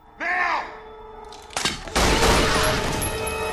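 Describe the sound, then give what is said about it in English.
Two gunshots fired at a hitman's chest ring out close together. The second bang is louder and leaves a long, loud wash of noise, and a short groaning tone comes before the shots. “The hitman's attempt to use his other weapon is thwarted by two surgically precise shots to the chest.”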